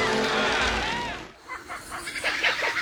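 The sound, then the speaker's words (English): A kookaburra laughs in a rapid, rhythmic run of chattering, harmonic cackles. It follows a loud burst of roaring, noisy car sound linked to a driving accident. “I reckon that kookaburra's laughing at me.”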